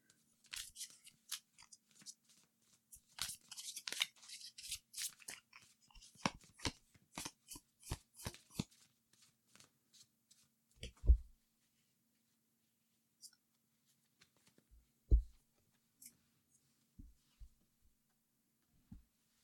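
Tarot cards being shuffled and drawn for a reading: a dense run of quick, crisp flicks and snaps over the first half, then sparser light taps with a few duller knocks, no voices.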